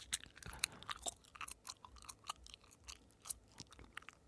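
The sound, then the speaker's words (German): Gum being chewed close to the microphone: many soft, moist smacks and clicks in an uneven rhythm, faint and alone with no talking. “Obwohl, ich habe heute einen Kaugummi im Mund.”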